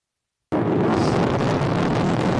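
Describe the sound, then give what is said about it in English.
A Falcon 9 rocket booster roars during its landing burn. The sound bursts in abruptly after a brief silence and holds as a loud, steady, rumbling roar to the end. “The landing burn has begun.”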